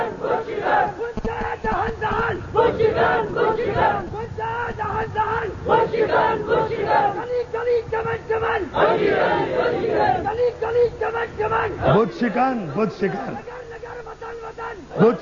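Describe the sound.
A crowd chanting a slogan: many voices shout together in a loud, rhythmic unison that rises and falls in repeated phrases and carries on for the whole stretch.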